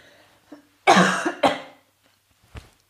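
Coughing after someone chokes on something: a faint hack, then a loud, harsh burst of coughing and a second strong cough, ending with a brief, softer cough after a pause. No talking is heard.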